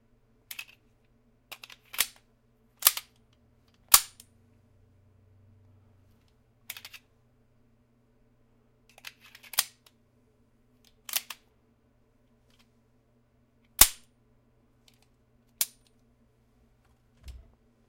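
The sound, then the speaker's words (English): Sig Sauer 1911-type .45 caliber pistol firing: many sharp, dry cracks at irregular intervals, each very brief and separated by quiet gaps, some in close pairs, fairly faint overall. “Sig Sauer 1911 type pistol, 45 caliber.”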